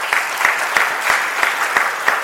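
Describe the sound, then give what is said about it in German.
A church audience applauds, a loud, dense sheet of clapping with a regular pulse running through it at roughly three beats per second. “Ich finde, da kann man nochmal einen Applaus für geben.”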